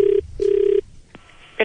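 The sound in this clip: Telephone ringing tone on a call to a hospital: a short buzz, then a longer one at a steady mid pitch, followed by a few faint clicks.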